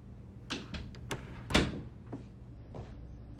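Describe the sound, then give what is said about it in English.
Door of a room being closed: a faint series of soft knocks and clicks, with one sharper thud near the middle as it shuts. “She enters Eli's room, turning to look out as she closes the door.”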